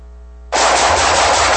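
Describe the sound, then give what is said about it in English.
Automatic gunfire: a low tonal hum cuts abruptly into a loud, continuous rattling burst of rapid shots that holds steady to the end. “Nice shooting.”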